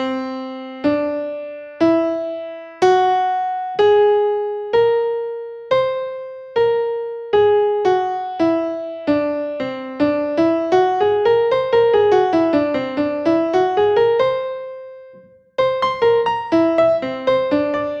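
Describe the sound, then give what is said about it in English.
A whole-tone scale played as a series of single sustained notes stepping steadily upward, then a quick flowing run that rises and falls, followed by a brief pause and a few more notes, with no voices. “It's a series of notes that are all a whole tone apart. It's very disconcerting. It sounds like this.”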